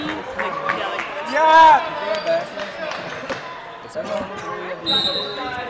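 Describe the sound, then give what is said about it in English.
Volleyball bounced on the court before a serve in a varsity boys' region match, a few dull thuds under crowd hubbub and a voice talking. “Service by Olympus. Number 77. Still bouncing the ball.”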